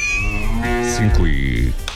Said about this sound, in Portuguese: Um mogido pra você e pra você.